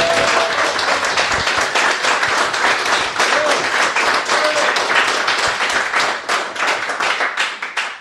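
Audience applause at the Kaijukon convention in Uelzen: dense, loud clapping from many hands that holds steady for the whole stretch and thins slightly toward the end.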